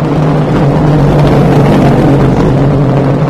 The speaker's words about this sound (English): Here comes an Aston Martin, listen.